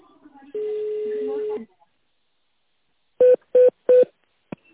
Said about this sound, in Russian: В тональном режиме наберите внутренний номер абонента.